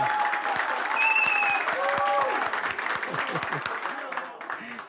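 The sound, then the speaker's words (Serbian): Big applause fills a kafana, a loud, sustained wash of clapping with voices calling out over it, easing slightly toward the end. “Ja ću zamoliti kafanu još jedan veliki aplauz!”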